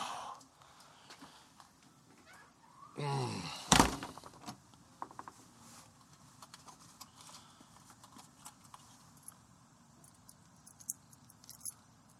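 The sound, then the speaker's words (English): A door is pushed shut with one sharp, heavy thud, followed by faint scattered clicks and small rattles as it is locked. “for grabbing the door for me. If you could lock it behind, that would be fantastic.”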